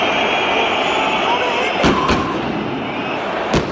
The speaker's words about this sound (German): Denn normalerweise hört sich das ja so an, wenn Sitzschalen aus dem Stadion gerissen werden.